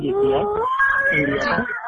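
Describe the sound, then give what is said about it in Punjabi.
A child cries in a thin, wavering wail with whimpering rises and falls, heard over a phone call and mixed with voices. “मैं लगता बच्चा रो रहा है”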